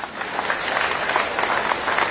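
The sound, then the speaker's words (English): Audience applause at a question-and-answer event, a steady, moderately loud patter of many hands that holds at an even level for about two seconds. “Round of applause.”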